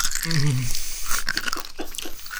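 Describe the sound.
Crisp bites and chewing of a crunchy slice of food, with many irregular, crackly crunches close and loud throughout.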